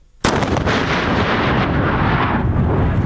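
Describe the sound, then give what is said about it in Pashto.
A landmine found on the Kandahar–Uruzgan highway detonates in one sharp, loud blast, followed by a heavy rumble that slowly fades. “حاجي محمد تازه د کندهار روزګان پر لوی لار کشف سوي ماین ته چاودنه ورکړه.”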